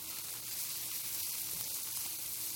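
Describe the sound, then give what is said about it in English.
Vegetables and stems sautéing in a pan with onions, garlic and tomatoes give a quiet, continuous sizzle, an even hiss with no breaks and no voices. “So I would put that in there also and let it just cook down a little bit with your onions, your garlic, and your tomatoes.”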